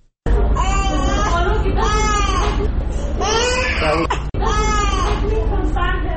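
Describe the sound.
A young child cries loudly in sustained, wailing bursts, several strained harmonic sobs following one another with barely a breath between them and one brief break partway through.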